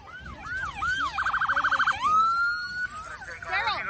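Police car siren as a cop vehicle drives through a roadblock, a loud rising and falling wail that switches to a quick burst of rapid yelping pulses, then returns to a long wail.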